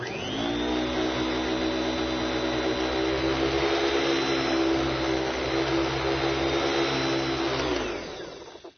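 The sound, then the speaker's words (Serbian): A vacuum cleaner runs with a steady, loud whining drone for about eight seconds, then its motor winds down and fades at the end. “Ali najviše od svega bih voleo da usisavam svet.”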